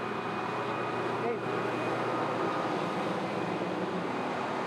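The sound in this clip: A combine harvester engine runs again after a repair, giving off a steady, even drone with a faint high whine that holds throughout.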